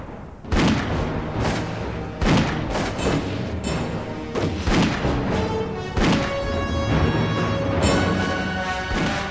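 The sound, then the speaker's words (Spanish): Gunfire in a gunfight between young gunmen and a lone defender holding a house: many heavy, booming shots at irregular intervals over a sustained tonal sound. “Armándose de valor, los jóvenes pistoleros avanzaron bajo el interminable fuego de Roberts”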